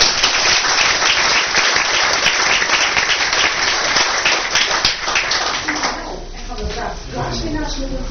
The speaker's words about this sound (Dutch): applaus voor jou